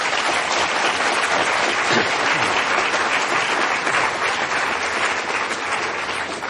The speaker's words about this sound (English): Why don't we take questions? Let's give a big hand for Dr. Trump.